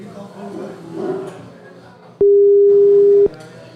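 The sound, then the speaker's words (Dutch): A single steady telephone beep lasting about a second as a rejected call goes to voicemail, following a stretch of people talking. “Nee, dit is de voicemail. Volgens mij ook kort en volgens mij heeft hij ons weggedrukt.”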